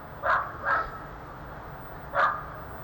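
A dog barks three times: two quick barks close together, then a single bark after a short pause, moderately loud over a steady low background hum.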